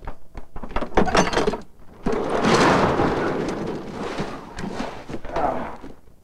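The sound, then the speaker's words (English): A padlock on a truck trailer is opened with a burst of metallic clicks and rattles. A long, heavy rumbling slide follows as the trailer door is pushed open, loud and sustained with some uneven scraping. “Red opens a padlock, slides the door open, and takes some of the tailor's suitcases into the barn.”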